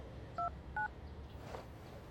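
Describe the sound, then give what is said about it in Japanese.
Telephone keypad dialing tones while placing a call for tickets: two short, clear dual-pitch beeps in quick succession, then only faint steady hiss. “待って、今電話してチケット取ってもらう。”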